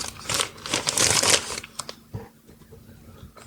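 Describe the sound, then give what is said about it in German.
Crinkling, crackling rips of a gift package being torn open, dense and loud at first, then thinning into sparser rustles and small taps. “So, jetzt reiße ich es mal auf.”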